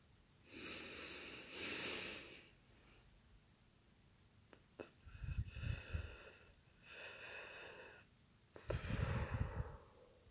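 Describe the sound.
Slow, audible breathing during a guided breathing exercise: a few airy, drawn-out breaths, some with soft low puffs of air, with no talking.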